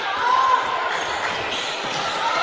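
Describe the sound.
A basketball is dribbled on the court during a second-half game against a full-court press, with repeated bounces under constant crowd and gym noise and some voices.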